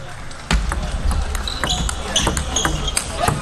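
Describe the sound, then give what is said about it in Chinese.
A few sharp clicks of a table tennis ball bouncing before Liang Jingkun's serve in a match, heard under a commentator's talk. “是梁靖昆发球，这一轮发球非常重要啊，一定是不容有失的两分球”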